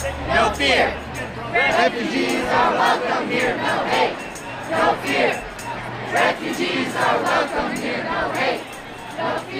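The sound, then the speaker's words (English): A crowd at BWI Thurgood Marshall Airport at night: a dense mass of voices shouting and chanting, surging in waves and staying loud throughout. “Some sound from BWI Thurgood Marshall Airport last night.”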